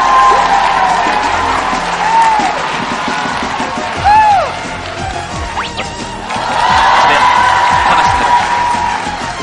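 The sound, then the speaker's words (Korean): A studio audience applauds to welcome a talk show guest with steady, dense clapping. Scattered whoops and voices rise over the clapping, which dips briefly in the middle and then builds again. “여러분 박수로 환영해 주시기 바랍니다. 어서 오세요.”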